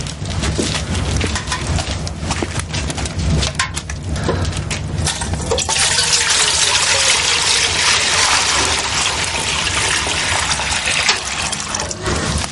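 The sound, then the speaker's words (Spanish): Water poured from a bucket into a white basin: a few seconds of clattering, knocking handling sounds, then a steady, loud gushing pour that runs evenly to the end. “Toma el cubo y vierte algo de agua en una palangana blanca.”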